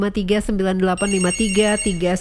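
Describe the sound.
Electronic ringing of a telephone with an incoming call: a repeating pattern of steady-pitched, harmonic tones in several quick bursts, fairly loud.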